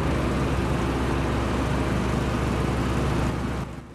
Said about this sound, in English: up from the exhaust pipe as the immense green tractor pulls away